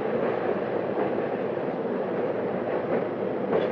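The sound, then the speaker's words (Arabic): A train pulls into a station in Alexandria with a steady, even rumble of wheels and carriages that holds at the same level throughout, with no voices. “منظر في المحطة والقطار داخل في اسكندرية، وزميل واقف على رصيف المحطة بينتظره.”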